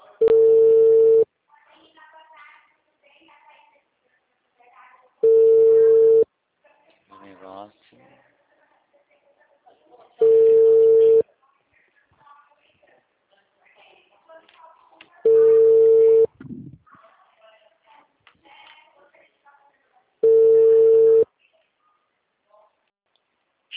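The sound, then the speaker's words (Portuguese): Telephone call tones sound before the call is forwarded to voicemail. Five steady mid-pitched tones, each about a second long, repeat at even five-second intervals, with faint voices and murmur in the gaps. “Chamada encaminhada para a caixa postal. Grave seu recado agora. Ô, seu Kleber, tá podendo falar? Tô tentando te ligar, você tá dando caixa postal?”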